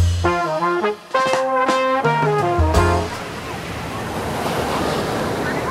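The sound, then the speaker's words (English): Waves and surf at Copacabana Beach in Brazil: a few plucked musical notes give way to a steady, broad rushing wash of breaking surf mixed with wind. “Ah, Copacabana Beach, perhaps the epicentre of beach culture around the world”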